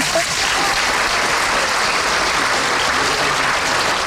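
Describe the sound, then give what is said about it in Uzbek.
Steady, dense applause from an audience during a programme, a continuous even wash of many hands clapping that stays loud from start to finish. “mana shu olqishlar sizga.”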